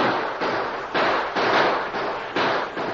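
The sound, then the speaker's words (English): Gunfire rattles through a gunfight in a run of loud, rough shots that come one after another at a fairly even pace, each a broad burst of noise with almost no quiet between them. “And the gunfight continued without any let-up, and Soapy's men crawled closer and closer. Their bullets ripped into the wooden barrier, and Barnes was hit.”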